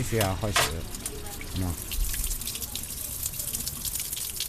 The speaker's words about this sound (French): le visage dans ce lavabo, ici. On mélange un peu d'eau froide, un peu d'eau chaude, et c'est prêt.